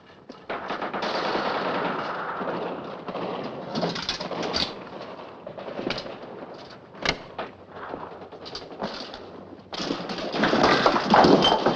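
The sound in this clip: Rapid gunfire from a two-player shooting video game: dense bursts of automatic shots with sharp, loud peaks, growing heavier toward the end, with no talking.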